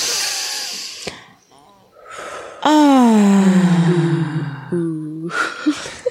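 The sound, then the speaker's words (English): Deep belly breathing with moaning during a breathing exercise: a long breathy inhale, then a loud drawn-out voiced moan sliding down in pitch, followed by a shorter moan and soft breath sounds. “let's just work on a belly breath. Let's incorporate some sexy sounds. Breathe in.”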